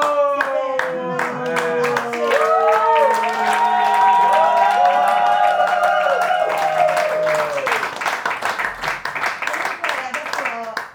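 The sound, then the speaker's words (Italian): Lazy, sparse applause from a comedy-night audience: scattered individual hand claps tap along beside a sustained tonal voice, becoming more distinct and uneven toward the end. “Posso meritare un applauso? Dai, dai! È l'applauso più pigro che abbia mai sentito nella mia vita”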